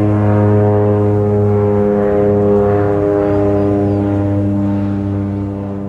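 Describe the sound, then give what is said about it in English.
A seaplane (float plane) engine drones steadily, a loud low hum with strong even harmonics that holds throughout and eases slightly at the end. “There was a little bit of a bird in the background, but I was trying to capture the seaplane”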